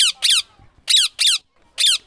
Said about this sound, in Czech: Takto se rozčiluje papoušek, takzvaný Alexandr Malý, je celý žlutý. A zjevně se rozčílil, protože jsem se pokoušela ho vyfotit.